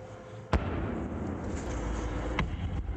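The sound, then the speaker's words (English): Gunfire from militiamen shooting at U.S. Army positions on the outskirts of Najaf: one sharp, loud report, then a couple of fainter cracks later, over a steady rumbling background noise. “Militiamen firing on U.S. positions here on the outskirts of Najaf.”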